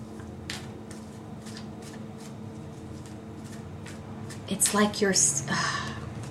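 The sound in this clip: Tarot cards being shuffled and one drawn during a reading: a low steady background with faint talk, then near the end a brief, louder flurry of riffling and card slaps.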